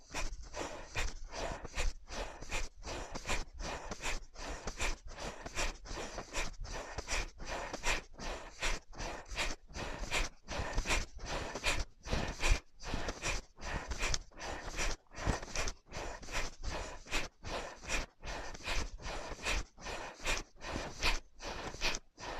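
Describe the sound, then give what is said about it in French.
Dynamic breathing exercise with forceful, rapid inhales and exhales repeated many times in a quick, steady rhythm, fairly soft and continuing for over twenty seconds without talk. “Donc, inspire, les épaules montent et expire, elles descendent. Inspire, expire, inspire, expire.”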